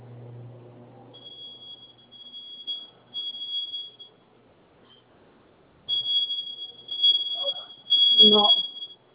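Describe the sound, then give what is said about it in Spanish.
An alarm sensor beeps with a thin, high-pitched tone that sounds in repeated stretches and gaps. People talk at the start and again near the end. “Me apoya acercándose al lugar donde se está escuchando más y me dice si alcanza el sensor que suena, ¿sí?”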